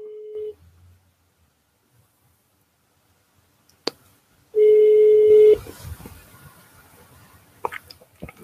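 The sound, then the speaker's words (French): A phone call is placed on speakerphone: a short steady tone, a long silence, a sharp click, then a loud tone of about one second, followed by faint crackling line noise. “Allez, je vais l'appeler et je vais mettre le haut-parleur”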